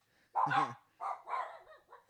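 A pet dog barks indoors, one strong, harsh bark followed by three shorter, softer barks, fairly faint overall and with no talk over them.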